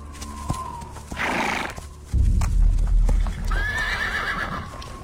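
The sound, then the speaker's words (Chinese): A war horse halts and neighs restlessly, its hooves clopping along with a noisy snort and then a long, high, wavering whinny near the end. “刚走了一会儿，战马警觉地停下脚步，烦躁地嘶鸣着。”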